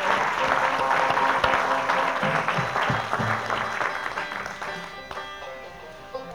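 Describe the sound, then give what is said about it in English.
An audience at a concert at Chicago's Old Town School applauds the sound engineer with a dense burst of clapping that slowly fades toward the end. “Let's give him a hand.”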